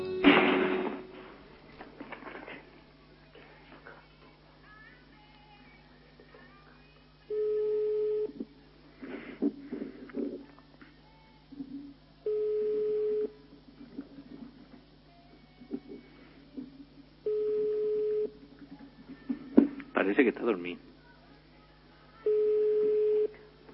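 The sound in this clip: Telephone line tones sound during an attempted call: four long, evenly spaced mid-pitched beeps repeat about every five seconds, with a brief burst at the start and a few short clattering noises in between.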